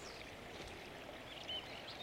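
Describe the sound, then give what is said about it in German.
A small river, the Nister, flows gently through woodland with thick tree trunks reaching to its bank. It makes a soft, steady, faint rushing sound throughout. “Ein kleiner Fluss. Ganz gemächlich schlängelt er sich durch die Landschaft.”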